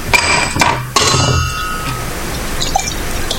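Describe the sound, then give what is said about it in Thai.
Glass clinks a few times as a drink is poured into a glass, the sharp chimes followed by a steady, soft wash of pouring noise with no voices. “เติมเครื่องดื่มนะครับเบาๆนะฮะ”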